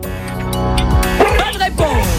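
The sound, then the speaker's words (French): A dog yips and barks in a few short, high bursts mixed into a loud music track. The barks are clustered in the second half and sound whimpering and playful. “C'est un chien derrière.”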